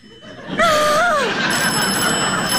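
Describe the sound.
A telephone rings for an incoming trunk call. The bright, warbling bell tone starts abruptly, holds briefly, then tails off into a steady hiss.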